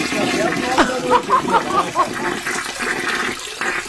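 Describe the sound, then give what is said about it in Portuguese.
Hands being washed under running water: a steady wash of flowing water with people talking over it. “Só lava a mãozinha, tá?”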